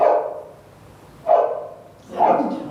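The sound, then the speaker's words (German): A dog barks three times, in single mid-pitched woofs spaced about a second apart, with a faint background hum between them. “Das ist ein Hund.”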